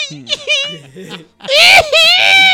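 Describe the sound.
A voice imitates crying with wavering, wailing sobs, a shorter broken bout followed by a louder, drawn-out wail.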